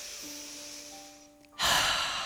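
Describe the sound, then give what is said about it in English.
A deep breath drawn in and let out during a seated guided relaxation. A soft, airy inhale gives way to a louder, rushing exhale, with no talking. “Take a deep breath in, deep cleansing breath.”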